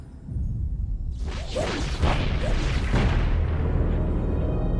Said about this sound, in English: Oh, your staff weapon fire. Yep, they're getting close.